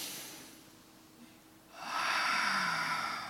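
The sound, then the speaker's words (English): A deep breath: a quiet pause, then a long, steady, breathy rush of air that swells and holds to the end, with no speech. “I want you to take a deep breath with me.”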